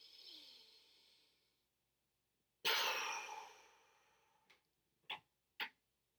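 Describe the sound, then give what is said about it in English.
A forceful exhale bursts out after the breath is held, as part of a breathing exercise. A softer breath comes first, then silence, then a sudden loud rush of air that fades over about a second, followed by a few brief faint ticks. “And then you'll release it with an explosive exhale.”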